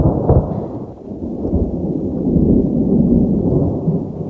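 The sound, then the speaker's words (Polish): A deep, rolling rumble of thunder during a storm fills the whole clip as continuous low roaring. It dips briefly near the first second, then swells louder and holds steady to the end, with no voices. “Nawet kolejna błyskawica i grzmot nie odrywają jej od motania.”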